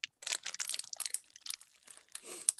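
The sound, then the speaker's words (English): Packs of hockey cards being torn open, giving faint, dry crinkling and crunching wrapper noise with many small crackles and tears that come in quick bursts. “let's open some hockey cards. We're on the hunt for Bertuzzi. Yeah, here we go.”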